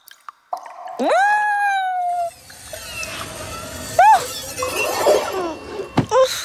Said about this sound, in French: Les parois de la grotte ruissellent. La roche est mouillée.